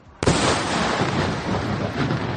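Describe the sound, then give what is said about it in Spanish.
Rocket fire from a Shiite militia bombardment over northern Israel: a sudden loud blast bursts in and becomes a dense, sustained roaring rumble that holds steady to the end, with no voices. “unos bombardeos por parte de la milicia chií sobre el norte de Israel que sonaban así.”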